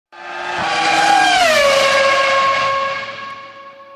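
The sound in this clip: Formula One race car engine screaming at high pitch, its whining harmonics dropping sharply in pitch midway as it passes, then holding a lower drone before fading out, with no talk.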